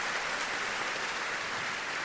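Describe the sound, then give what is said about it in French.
Dense, steady applause from a festival audience as the mayor of Lyon stands at the opening, a continuous hiss-like wash of clapping with no distinct single claps standing out. “Le maire de Lyon, en effet, qui se lève, très applaudi, le maire de Lyon.”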